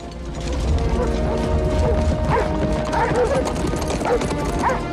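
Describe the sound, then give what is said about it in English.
Horses' hooves clip-clop across a wooden bridge as riders leave a castle, with peasants running behind. A dense, steady clatter of hoofbeats and rattling continues throughout at a fairly even loudness. “They and Felton ride out of the castle along a wooden bridge, with a small group of peasants running along behind.”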